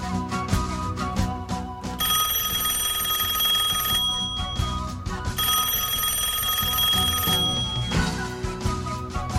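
An outgoing telephone call rings out in two long, steady ring bursts, each about two seconds, separated by a short gap, over constant background sound.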